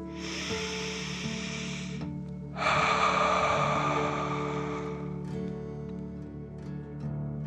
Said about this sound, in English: Let's take another 3 deep dragon breaths. Deep breath filling up your belly in and out.